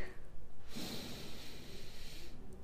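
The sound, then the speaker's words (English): A single long, deep breath drawn through the nose or mouth during a breathing exercise. It is a steady, breathy rush of air that swells, holds for over a second, then stops, with no talking. “So I want you to take a big breath in”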